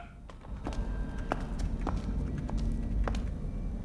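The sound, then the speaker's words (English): Footsteps hurrying down a corridor, a quick, irregular series of sharp taps over a continuous low rumble. “Meanwhile, Tap hurries down after his colleague.”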